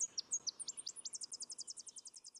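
Bird song: a high, thin series of clipped notes, a few spaced out at first and then settling into a fast, even trill of many repeated notes, faint over a quiet background.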